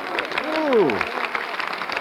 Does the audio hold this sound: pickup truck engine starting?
no

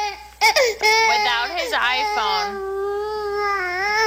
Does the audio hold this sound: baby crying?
yes

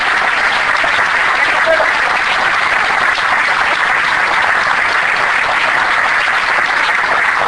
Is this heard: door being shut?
no

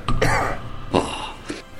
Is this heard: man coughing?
yes

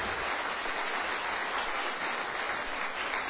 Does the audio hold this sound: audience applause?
yes

